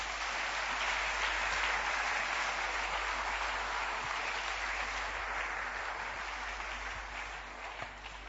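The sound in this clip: A church audience applauds in a dense, sustained burst of clapping that stays fairly even for about eight seconds before easing slightly at the end, with no talk over it.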